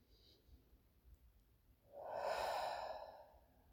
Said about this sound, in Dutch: Adem nog eens rustig in en uit.